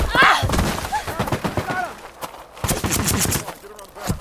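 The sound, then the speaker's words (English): Gunfire from guards shooting, a rapid scatter of sharp cracks and dull thuds spread across the scene, with voices calling out between and over the shots. “It's not them. The guards are shooting at someone over there.”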